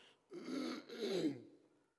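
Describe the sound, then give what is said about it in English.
Someone clears their throat, trying to get something caught there out, in two rough, guttural pushes. It is quiet, with no other sound. “I don't know what got in my throat here, but you have to excuse my trying to get it out.”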